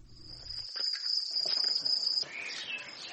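Steady, shrill chirping of many crickets at a cricket farm in Kyrgyzstan raising them for flour. A continuous high trill holds, then cuts off partway through, leaving fainter, busier insect noise.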